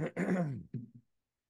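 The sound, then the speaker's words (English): A single short, fairly quiet cough with a throat-clearing rasp: a brief burst followed by a voiced, groaning rattle and two smaller catches that fade out. “I got to cough.”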